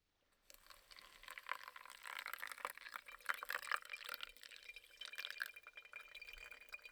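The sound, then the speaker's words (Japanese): Hot water being poured, a faint soft trickle that begins after a brief silence and continues steadily with small splashing, dripping flickers, alone without talk. “お湯を注ぎます。”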